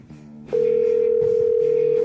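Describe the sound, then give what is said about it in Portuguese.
A telephone dial tone comes on as a long-distance call is placed. The loud, steady pitch holds unbroken after a brief, lower hum. “vou ligar sim pro Garotinho, vamos lá, discando aqui, né? É a ligação interurbana, DDD 22, interior do Rio de Janeiro.”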